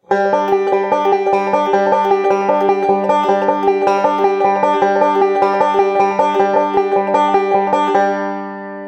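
A fingerpicked forward roll played uninterrupted on repeat: a fast, even stream of bright plucked notes at a steady tempo with no pauses. The final notes ring out alone as the pattern stops.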